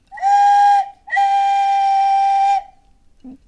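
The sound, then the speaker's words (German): A shepherd's pan flute, or syrinx, made of reed pipes, plays two clear, breathy notes at a steady pitch. The first is short and the second is held longer, followed by a faint knock. “Pan griff zu seiner Syrinx, der Hirtenflöte, und entlockte dem Rohr Töne,”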